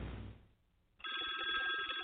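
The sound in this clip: A telephone rings with a bright, steady, buzzing ring that starts suddenly halfway through, after a short stretch of fading noise and a moment of near-silence.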